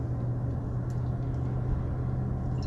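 Low, steady engine and road rumble from a car driving slowly behind a pickup truck and a dump truck. The drone stays even throughout with no voices.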